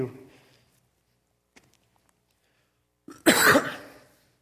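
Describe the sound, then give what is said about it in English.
A single short, harsh cough into a microphone breaks a near-silent pause, following a faint trailing voice at the start. “Trying really hard not to cough into the microphone.”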